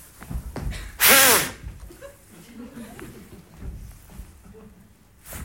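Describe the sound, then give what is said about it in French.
A single loud, breathy blow into a breathalyzer at a police roadside check: a sharp burst of air lasting under half a second. Faint murmuring voices can be heard around it. “Soufflez là-dedans, s'il vous plaît.”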